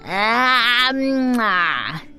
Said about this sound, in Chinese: 安静的教室一角突然传出了打哈欠的声音